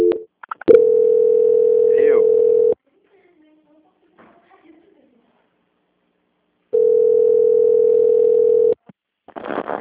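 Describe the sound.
A telephone line tone plays while a call is being transferred: two long, steady, mid-pitched beeps, each about two seconds long, separated by a stretch of near silence with faint clicks.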